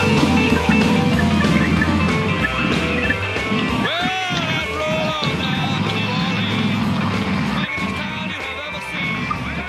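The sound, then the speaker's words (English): A lawn mower mowing a lawn gives a steady, droning motor hum that runs unbroken under a voice heard briefly over it. “We didn't know you were going to mow your lawn suddenly.”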